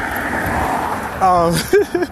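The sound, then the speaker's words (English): Cars pass by outside with a steady whooshing road rumble that runs throughout, and a voice speaks over the traffic in the second half. “I'm like outside, so the cars are just going by. So you're going to hear cars and whatnot zooming.”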